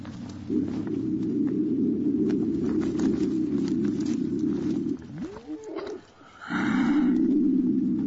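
Mountain lions growl in a low, rough, sustained rumble that runs for several seconds, breaks off briefly, then resumes just as strongly.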